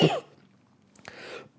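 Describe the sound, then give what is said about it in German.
A short coughing fit from a person opens with one sharp, loud cough, then quieter rough throat sounds after a brief pause. “kurzer Hustenanfall”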